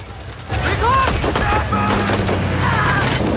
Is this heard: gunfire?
yes